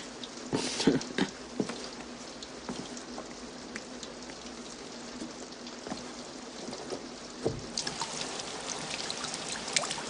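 Rain falls steadily, a dense, continuous hiss of patter with scattered louder drips and splashes standing out now and then, with no voices.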